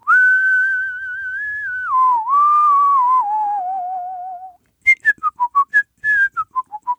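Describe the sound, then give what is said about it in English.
Whistled speech in a tonal language, used to talk across a gorge: a long, loud, steady whistle stepping gradually down in pitch, then a short pause and a quick run of short whistled notes that dip and rise. “listen to this guy. Now, he's whistling something and you're thinking, well, oh, well, that's their music. No, they're talking. They're talking across a gorge.”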